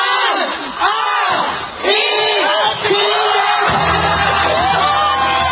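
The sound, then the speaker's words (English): A big crowd in Taiwan cheers to welcome the new year: a loud, continuous roar of many voices with shouts, whoops and wavering yells that swells and dips briefly before surging on. “Huge celebrations as well in Beijing, Singapore, Tokyo, and here are the sounds of Taiwan welcoming the new year.”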